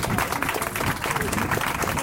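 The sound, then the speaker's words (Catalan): Audience applauding two children whose drawings were used for artwork, dense continuous clapping with voices mixed in. “Ja podeu sortir aquí, que us aplaudeixin, que us vegin, perquè sou els mateixos artistes”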